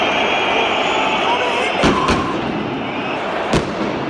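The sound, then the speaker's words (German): Plastic seat shells being torn out of a football stadium during a riot: a few sharp cracks and bangs break through a loud, continuous roar of crowd noise. “Denn normalerweise hört sich das ja so an, wenn Sitzschalen aus dem Stadion gerissen werden.”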